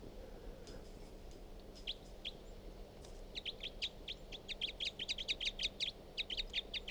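Bird chirps recorded from a single bird: faint, high, short chirps, sparse at first, then a rapid repeated run through the second half over a steady low hum.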